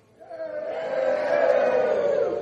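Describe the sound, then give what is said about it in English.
A single voice imitates a crowd reacting to a tightrope walker finishing a crossing. It is a sustained, swelling 'ooh'-like vocal cry that grows louder over about two seconds. “So Blondin makes it across, and the crowd goes,”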